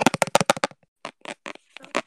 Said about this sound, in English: I have a bank card in my hand right now. Can you hear it?